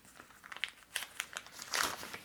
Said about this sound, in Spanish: El dinero es, esto no sirve de nada, esto lo puedes romper así. Tú llegas, rompes esta vaina, por aquí tenía el dólar.